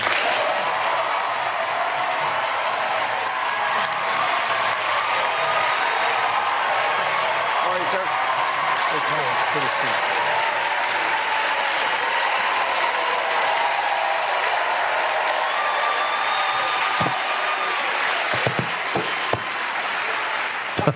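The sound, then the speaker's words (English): A handpicked audience at a CNN town hall cheers and applauds for President Joe Biden. A dense, continuous roar of claps and cheering holds at a steady, loud level throughout. “But they were handpicked, and boy, they cheered like crazy.”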